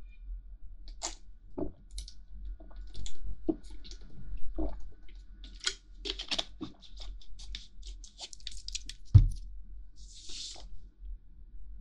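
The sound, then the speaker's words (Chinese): A person sipping a drink of water, with faint, scattered wet slurps and swallowing clicks, plus one sharper thump near the end, and no talking. “不好意思，我喝一口水。”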